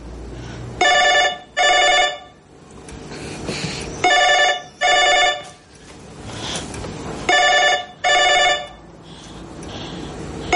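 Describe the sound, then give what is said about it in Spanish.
A telephone rings in three double bursts: six bright electronic trills in pairs, with quiet gaps between the pairs. The rings are loud and heard alone, without voices. “El sonido del teléfono la asusta.”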